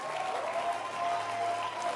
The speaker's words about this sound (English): Clap your hands. And it's a real blessing. Keep clapping your hands.